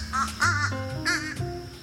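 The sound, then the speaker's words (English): Crows give a few harsh, raspy caws in quick succession. The calls are short and fairly loud, with brief gaps between them. “I had no idea there were two kinds of crows.”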